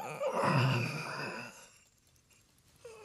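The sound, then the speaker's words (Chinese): A loud, drawn-out snore from a sleeping portrait, imitated by a human voice: a deep groaning rasp swells for about a second and a half, then fades into near silence. “他身后的一幅肖像发出一声特别响的呼噜”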